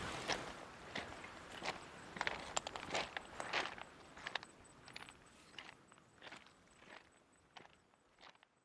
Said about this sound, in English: There we go, back on the stones. So anyway, yeah, I'm just gonna keep on walking and see if I can complete this loop.